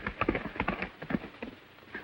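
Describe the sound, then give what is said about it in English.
A horse gallops out of a ravine, its hooves landing in quick, uneven clusters of muffled beats that keep a driving rhythm. “Meanwhile, Zanty gallops out of the ravine.”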